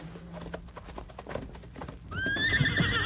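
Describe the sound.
A saddled horse, left out all night, gives a loud, wavering whinny in the final second, preceded by several dull hoof clops and stamps.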